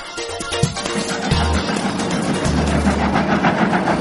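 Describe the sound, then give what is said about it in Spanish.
A moving locomotive train as a sound effect, a loud, steady rumble with a rhythmic chugging pulse that continues throughout, with no talk. “La locomotora sigue avanzando.”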